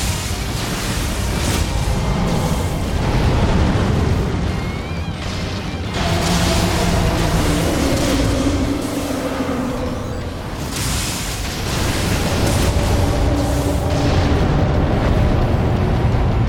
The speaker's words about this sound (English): These lightning bolts are hitting, which is good, because that deals the damage, you know?